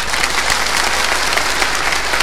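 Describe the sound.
Polite applause from an audience: a steady, dense patter of many hands clapping at an even loudness throughout, with no voices standing out.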